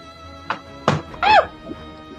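Dice rolled for an attack roll during a tabletop role-playing game, heard as a few dull, short thunks and knocks spaced over about a second, fairly loud, then fading to quiet.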